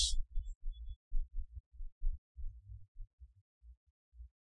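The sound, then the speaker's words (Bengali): A heartbeat thumps as a steady run of low, muffled double beats, the beats growing fainter toward the end, with no voices. “হার্টটা চলতেছে, heartbeat, এটা কিন্তু রু না।”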